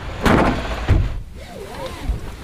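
Car door being shut before driving off: a few dull, low thumps with rustling noise between them.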